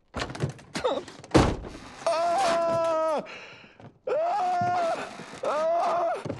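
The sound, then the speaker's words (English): Dull thuds of a person elbowing a stuck car door from inside the vehicle: a few muffled knocks and one heavier thump, followed by drawn-out, strained groans. “then reaches outside and pulls on the door handle, but it doesn't open. He elbows the door, then pulls his leg with his hands.”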